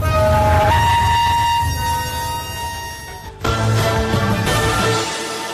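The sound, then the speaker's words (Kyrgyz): Diesel locomotive revving and setting off, a loud tonal engine drone rich in stacked harmonics that shifts pitch, then surges abruptly louder partway through before settling into a steady roar. “Турмузду коюп бардык. Оборот алыпты дизель. Мана кеттик жөнөдү.”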